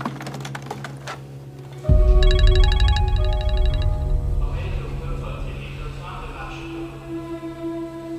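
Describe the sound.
A telephone rings with a rapid, high electronic trill lasting under two seconds. It sits over a low rumble and scattered clicks, and people talk around it.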